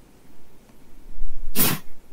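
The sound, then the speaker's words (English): A dog sneezes once during play-fighting with another dog, a single sharp, hissing burst that stands out clearly over low background rumble. “Sorry, that's my dog sneezing.”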